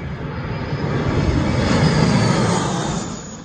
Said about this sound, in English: That's the sound of a jet dropping a load of fire retardant on a Montana ranch in 2020.